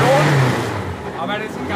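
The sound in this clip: Engine of a borrowed vintage Super Touring Cup race car, a collector's car fired up again after a days-long check at the Nuremberg street circuit. It makes a loud, sustained roar that swells as it revs, with talk over it.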